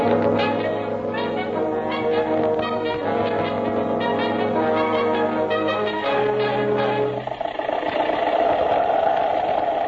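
An early motor car engine runs loudly and continuously with a chugging, vibrating rattle, then shifts to a rougher, denser drone near the end.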